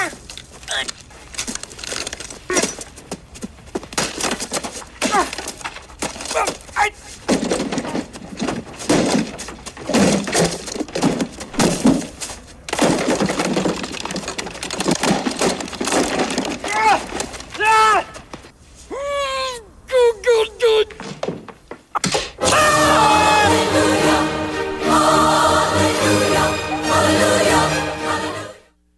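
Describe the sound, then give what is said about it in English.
Lawn decorations being kicked and smashed, a reindeer, a little sled and a snowman: many irregular cracks, crunches and wooden thuds in bursts, with people talking over the destruction and a fuller, denser stretch of sound toward the end. “he's kicking the reindeer and the little sled and the snowman, just totally destroying it.”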